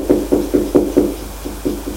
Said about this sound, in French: frappa la porte